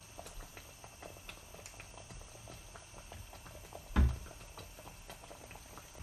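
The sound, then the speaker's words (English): Bread sauce of milk, water, butter, cinnamon and whole pepper simmers toward the boil in a pan, giving a faint, steady patter of small bubbling pops with one louder knock partway through. “So you're bringing it to the boil, Lisa? Yeah, it's starting to simmer, and so I can put it to the boil in a moment.”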